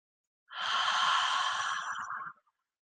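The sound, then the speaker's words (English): A single long breath is exhaled out through the mouth, a steady breathy rush lasting about two seconds that fades away at the end, heard alone. “And as you breathe in, hold your breath right at the top. And now release out through your mouth.”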